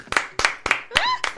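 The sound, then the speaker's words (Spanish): Audience clapping along in a steady rhythm: five evenly spaced, crisp hand claps, with a brief voice rising over the fourth clap. “un aplauso para la nona.”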